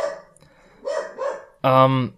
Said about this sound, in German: Dein Hund ist aber heute mitteilungsbedürftig.